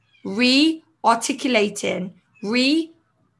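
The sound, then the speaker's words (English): A new kitten meows while trying to get into a room: a few high, tonal, drawn-out cries that bend up and down in pitch, separated by short silences. “And you may hear a cat meowing, and I do apologize. That is, yes, that is my new kitten. and she's trying to get in this room.”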